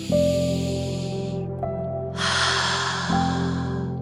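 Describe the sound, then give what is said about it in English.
A single slow, deep breath, taken as preparation during a calming guided session: an airy, hissing rush of air that swells partway through over a steady, sustained low drone. “let's take three deep breaths to prepare. Breath one.”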